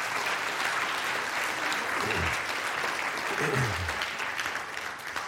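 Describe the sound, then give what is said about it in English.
Congregation clapping hands during a church service: a dense, steady wash of applause that carries through the whole stretch and eases slightly near the end. “Let's clap hands for God,”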